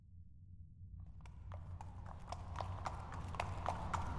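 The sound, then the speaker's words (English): Horses' hooves clip-clopping through tunnels: faint, steady, rhythmic hoofbeats that begin after a moment of quiet, over a low continuous rumble. “You and Treya have been... riding Starshine and Moonbeam side by side through these tunnels.”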